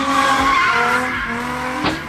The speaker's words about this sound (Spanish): Al conductor se le pasó el acelerador y el Mustang se estrelló salvajemente y del impacto perdió una llanta.